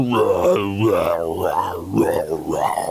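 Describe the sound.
A human voice imitates demonic gasping and groaning, mimicking eerie background noises played behind a performance lift, with drawn-out, wavering moans at steady loudness.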